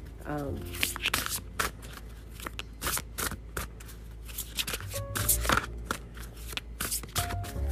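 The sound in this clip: Cards being shuffled for a spiritual card reading: soft, quick riffling and flicking clicks in irregular bursts, faint and continuous throughout.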